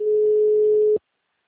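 A telephone tone as a call drops: a single steady, mid-pitched tone lasting about a second, then silence.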